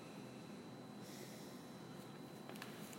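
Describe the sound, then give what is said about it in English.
A faint, slow inhale through the nose during a mindful breathing exercise, a soft airy hiss that runs steadily throughout. “Inhaling through the nose,”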